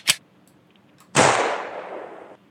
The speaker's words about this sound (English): Well, maybe you should shoot him like everybody else shoots their people.